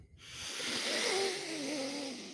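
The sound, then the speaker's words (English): A long, deep inhaled breath taken during a guided grounding meditation: a steady, airy rush lasting about two seconds, with a faint wavering tone underneath and no talk. “One more nice deep breath in.”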